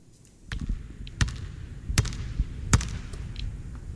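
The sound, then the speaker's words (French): A basketball bounces on a hard floor as a sound to guess in a quiz game, a few sharp, spaced thuds with quieter patter between. “un ballon de basket qui est au sol. Bien vu, oh, bien vu.”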